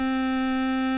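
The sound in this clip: A Boston Emerald electronic organ sounds a steady, loud sustained tone, rich in harmonics, with a key pressed deep onto its touch-sensitive swell contact. The note is held unchanging and alone.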